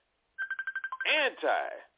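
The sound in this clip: A personal phone line going off during a live show: a rapid run of short electronic beeps, followed by a brief burst of voice-like sound.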